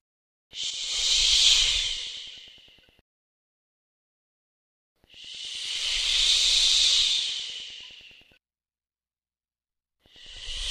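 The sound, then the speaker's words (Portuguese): Sea waves whoosh in broad, breathy hisses, with two full surges each swelling and then fading into silence, and a third surge beginning at the end. “Seu som. Som de mar.”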